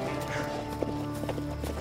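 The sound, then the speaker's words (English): Horse hooves clip-clop in a few light, irregular hoofbeats, faint against a steady tonal background with no clear talk. “All right, well, then get your ass on this horse.”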